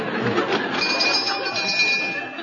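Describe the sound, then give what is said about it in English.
A bell rings for a fire drill as a dense, continuous metallic clangor that holds at an even loudness from start to finish. “Here, what's the bell for? Fire drill.”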